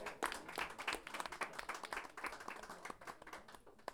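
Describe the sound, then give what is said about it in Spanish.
Audience applause at a live poetry and storytelling event as a guest writer is welcomed: dense, continuous clapping from many hands, fairly quiet and steady throughout, thinning slightly toward the end. “Aplauso a Catalina.”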